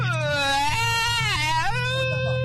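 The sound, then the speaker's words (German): A human voice imitates a baby crying, with one long, unbroken, nasal wail whose pitch wavers and dips a couple of times, loud and steady throughout. “Aber mal so richtiges Babygeheule kriegen wir jetzt auch noch hin.”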